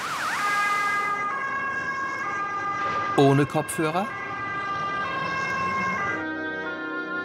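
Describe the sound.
Loud traffic at a noisy street corner in the city centre of Tampere: an ambulance siren wails over a steady rumble of engines, and a voice briefly asks a question midway.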